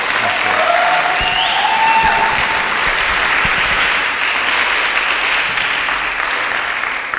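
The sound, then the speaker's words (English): Audience applause welcomes a guest speaker at a North London church gathering: a dense, steady wash of clapping that stays loud for about seven seconds and eases slightly near the end. “it's an absolute privilege to ask you to give a warm welcome, a good North London welcome to Andrew.”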